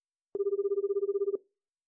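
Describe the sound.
A telephone ringback tone heard while placing an outgoing call: one steady, mid-pitched ring lasting about a second, with a fast warbling pulse, then silence.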